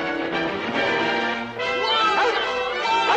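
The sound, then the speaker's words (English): A yellow dog barks and yelps as it chases a mule pulling a plow across a farm field. A few loud, harmonic barks run almost continuously, with a brief dip midway. “The dog follows, spooking the mule.”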